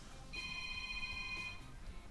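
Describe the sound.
Faint electronic ringtone of an incoming phone call: a single steady, bright tone holding for about a second over low background noise.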